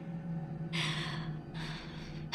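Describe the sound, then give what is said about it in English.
A deep breath drawn by a person at an open cellar door, heard as two long, breathy rushes of air of similar strength, with another breath just starting at the very end. “I took a deep breath.”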